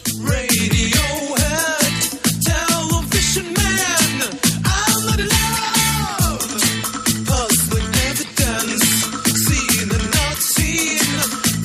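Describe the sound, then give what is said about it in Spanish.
Indietronica by a Norwegian band, a blend of indie and electronic music, plays loud with a steady, punchy beat and sliding melodic lines layered over sustained synth tones. “lo que suena de fondo es un grupo noruego que yo conocí cuando viví en Noruega. Ajá. Ahí conocí una cosa que no sé si tú conocías, el Indytronic. No. Es la mezcla del indie y la electrónica.”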